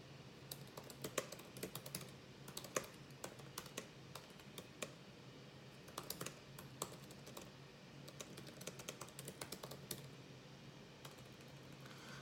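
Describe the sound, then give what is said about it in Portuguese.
Typing on a computer keyboard: many quiet, irregular keystroke clicks patter on steadily with short pauses, with no talk over them. “Eu vou escrever aqui para quem tá no YouTube.”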